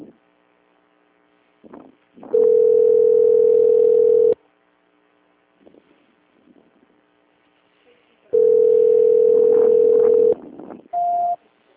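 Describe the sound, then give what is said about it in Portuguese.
A telephone ringback tone sounds on an unanswered call: two long, steady mid-pitched tones about two seconds each, separated by a pause with faint background noise, then a short, slightly higher beep at the end. “Não, tá chamando, mas chama até cair, volta a ligação. É, ninguém tá atendendo, entendeu?”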